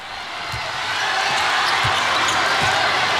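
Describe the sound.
A basketball is dribbled during an international game between China and the Czech Republic. A few dull, low thuds bounce at an even pace beneath the loud, constant crowd roar of the arena.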